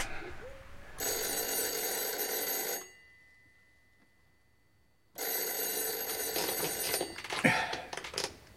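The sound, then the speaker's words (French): A telephone bell rings in two long, loud bursts of about two seconds each, separated by a silent pause of similar length. “Dis donc, c'est le téléphone? Oui, en effet, je crois que c'est le téléphone.”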